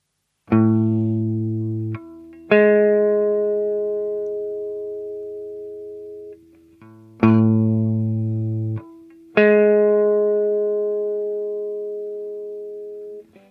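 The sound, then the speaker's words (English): A major seventh interval played as two clear tones. The lower note is struck first and the upper note follows, each ringing out with a slow, bell-like decay, and the pair is played twice. “The next interval is 0-11, or the major 7th.”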